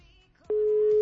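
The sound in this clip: A steady electronic telephone tone sounds after a phone call is hung up. It starts abruptly after a brief quiet stretch, then holds loud and unbroken at one pitch until the end.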